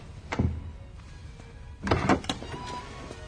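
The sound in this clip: A door in a film scene, heard as a soft thump early on and then, after a pause, a brief cluster of clunks and scrapes at moderate loudness, with no voices.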